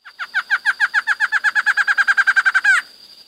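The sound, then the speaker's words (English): A barred antshrike call plays as a phone ringtone: many bright, hooked notes at a steady pitch, coming quicker toward the end and finishing on one longer note, clear and alone. “That was a barred antshrike.”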